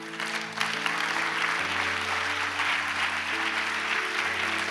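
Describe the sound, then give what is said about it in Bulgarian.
An audience applauding in a church, with dense, continuous clapping held at an even, fairly loud level throughout. “Не очаквах да ръкопляскате”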